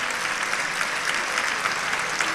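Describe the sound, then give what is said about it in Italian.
Applause from an audience at a stage event where people share personal life stories, a dense, even crackle of many hands clapping that stays level throughout. “Io vi ricordo un applauso, direi che è super meritato.”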